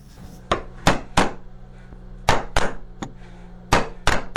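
Sharp hammer blows on a chisel as a man carves a national emblem into wood in traditional woodcraft. The strikes come as a series of loud, crisp knocks in irregular small groups, with quiet pauses between.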